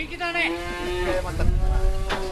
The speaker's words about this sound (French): Tokuei Hozukawa est éleveur, il possède 70 vaches et une trentaine de poneys.